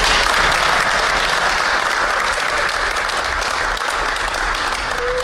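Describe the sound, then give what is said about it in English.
Sustained applause from an audience at a football gathering after a call to clap, a thick, even roar of many hands that holds at a steady level from start to end. “And clap for me.”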